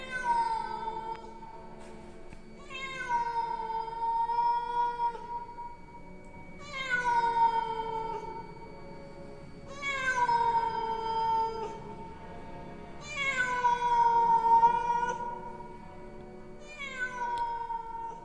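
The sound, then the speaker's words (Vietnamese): A stray cat yowls eerily, six drawn-out wailing cries separated by short pauses, each loud and tonal over a quiet background. “Xen lẫn trong không gian đó, một tiếng con mèo hoang ở đâu kêu lên những tiếng đến ghê rợn.”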